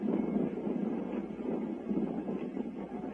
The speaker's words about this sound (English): And now the roar begins to die away. And a great burst of smoke from the launch pad drifts slowly south across the Cape.